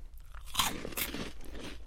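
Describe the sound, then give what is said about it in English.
Faint crunching and chewing as someone bites into bacon cheddar flavored sliders, a few soft crisp bites followed by quieter mastication. “Do you guys want to try these bacon cheddar flavored sliders?”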